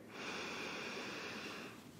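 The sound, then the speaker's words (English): A single long, deep inhale during a guided breathing exercise: a steady, airy rush of breath that holds evenly for about a second and a half, then fades, with no talking. “Let's take a breath here. Inhale.”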